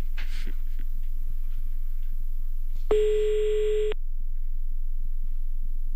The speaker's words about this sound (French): Bon, allez, c'est parti. On appelle à Yon maintenant.